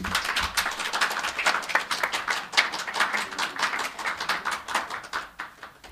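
An audience applauds to welcome an author, a TV comedy writer, to a book discussion and signing. The clapping is dense and sustained, with many overlapping claps forming an even, crackling wash for the whole stretch and no voices on top.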